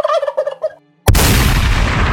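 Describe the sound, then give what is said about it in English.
A wild turkey in the video game World of Warcraft gobbles in a rapid, warbling burst. After a brief silence comes a sudden loud blast and a sustained roar of broad noise. “Finally, go hunt some wild turkeys.”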